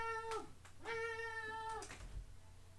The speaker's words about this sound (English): Can you hear this cat? Yeah, we can hear the cat.